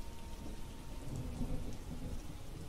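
Rain from a thunderstorm falls steadily with a low, rolling rumble of thunder beneath it. The sound is faint and continuous, and no voices are heard.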